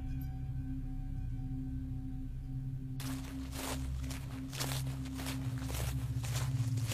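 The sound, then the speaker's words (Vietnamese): Slow, heavy footsteps in a dark forest begin midway as faint, regular soft thuds, repeating steadily over a low hum and a few thin tones. “Tiếng bước chân chậm rãi đều đều phát ra từ bên phải.”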